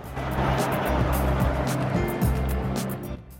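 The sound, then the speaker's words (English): A car drives past fields lined with fruit trees, giving a steady low engine drone with a constant humming tone that thins out at the very end. “They drive past fields lined with fruit trees.”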